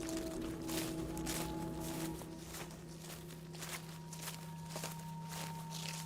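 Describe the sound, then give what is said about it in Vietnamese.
Slow, heavy footsteps fall as a steady series of soft, dull thuds at an even pace, faint over a low constant hum. “Thế nhưng dần dần, bước chân của ông lại trở nên nặng nề, chậm chạp.”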